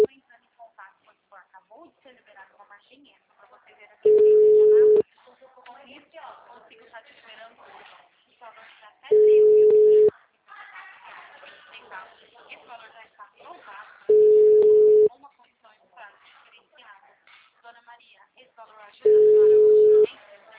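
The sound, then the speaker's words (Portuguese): Telephone ringback tone while a call is dialed: four long, steady beeps at even intervals, each about a second long, with people talking quietly in the gaps between them. “vou ligar para esse aqui, então.”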